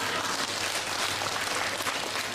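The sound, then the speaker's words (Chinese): Steady applause from a group of happy listeners, a dense, even wash of clapping at moderate level with no voices over it. “你想鼓掌就鼓掌啦”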